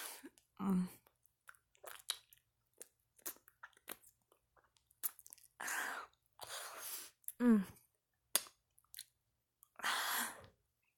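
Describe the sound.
Licking sounds: wet, sporadic mouth noises and slurps in short bursts separated by quiet pauses, with a few louder, more drawn-out wet strokes.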